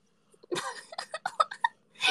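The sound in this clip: Heavy breathing from a pet just after a bath, a string of short, puffing, snorting breaths followed by a longer breathy exhale, with no talk.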